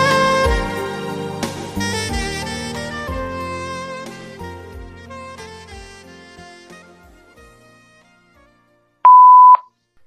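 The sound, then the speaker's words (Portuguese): A single loud, steady electronic beep signals a phone line message, following music that gradually fades to near silence. “Olá, sua ligação é muito importante para nós. Aguarde na linha depois do sinal.”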